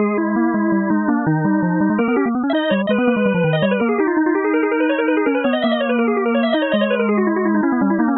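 Computer-played closing section of a canon with interlocking melodic lines in an even synthetic tone, its note groupings shifting from three-note to two-note beats in a steady, unbroken stream.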